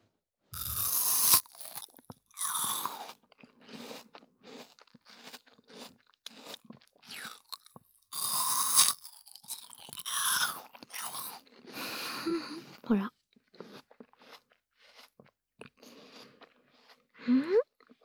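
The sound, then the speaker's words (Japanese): Crunchy apple being bitten and chewed, heard as loud, crisp crunches in irregular bursts with short pauses between bites, continuing through the whole stretch with no voices over it. “ほら、いい音するよ、リンゴ。”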